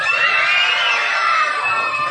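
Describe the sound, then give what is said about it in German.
Schoolchildren scream with joy at a school election result, a sustained, dense wall of shrill, high-pitched voices that holds loud and steady throughout. “Wir haben so richtig geschrien, weil wir haben uns so gefreut.”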